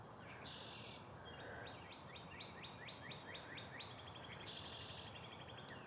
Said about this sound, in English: Listening to the bird calls early this morning here in Franklin, Mass.